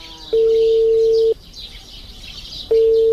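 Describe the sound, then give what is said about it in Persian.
Ringback tone of a phone call that goes unanswered: two long, steady, low electronic tones separated by a gap, the second cut off at the end, with faint high chirping underneath. “زنگ تیر میکنه خو جواب نمیده.”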